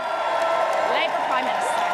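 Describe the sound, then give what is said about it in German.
Loud crowd cheering and whooping from hundreds of friends and party colleagues gathered outside 10 Downing Street in London to welcome the new Labour prime minister, a continuous roar with a voice talking over it. “Die BBC-Reporterin kam kaum gegen den Jubel an. Hunderte Freunde und Parteikollegen hatten sich vor der 10 Downing Street versammelt, um Keir Starmer, den neuen Labour-Premierminister Großbritanniens, willkommen zu heißen.”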